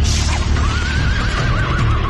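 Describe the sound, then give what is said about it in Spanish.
A horse neighs in a long, wavering whinny over a dense, noisy background. “mira el segundo caballo. Es rojo.”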